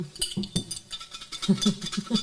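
A jar holding folded paper slips is shaken at a table, giving a rattling, clinking run of quick knocks in an uneven rhythm, moderately loud, with no talk over it.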